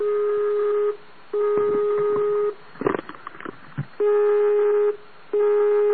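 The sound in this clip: A telephone ringing tone plays while waiting for an answer. Steady, low-pitched buzzy tones come in a few evenly timed bursts, broken midway by a short burst of clattering handling noise.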